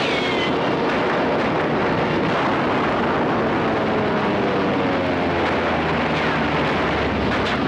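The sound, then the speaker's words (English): Loud, dense roaring battle noise from a recorded war movie soundtrack of gunfire on Iwo Jima, a continuous wall of blasts and rumble with no break throughout. “Who's shooting? No one is. That's a recorded soundtrack from a movie studio, right out of the sands of Iwo Jima.”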